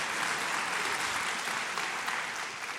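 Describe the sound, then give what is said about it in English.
An audience applauds in a steady, unbroken wash of many clapping hands, holding at an even level throughout. “Go ahead and applaud for that. A few of you applaud. Everybody applauds.”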